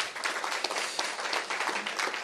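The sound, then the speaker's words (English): A round of applause at a church service, moderate and steady clapping with individual claps standing out throughout. “Can we give them all a round of applause?”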